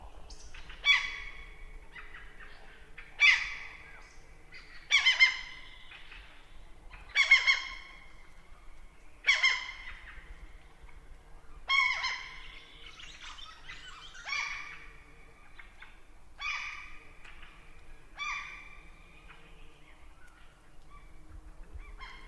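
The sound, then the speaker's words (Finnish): Gulls and thrushes calling from fields at dusk: many sharp, bright calls repeat roughly every two seconds, gradually growing fainter over a low, steady background hum. “Pelloilta palavat lokit ja rastaat ovat vielä äänessä.”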